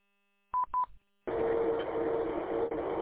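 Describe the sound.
Two short DTMF telephone tone bursts over a radio repeater, each a clean beep, followed after a brief pause by a long stretch of steady static hiss carrying a faint steady tone.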